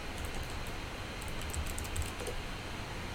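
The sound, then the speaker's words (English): Fingers type on a computer keyboard, entering a search into a search box: many quick, light key clicks in a steady, rapid run with no talking. “And we type into that search box, Big Mr. T”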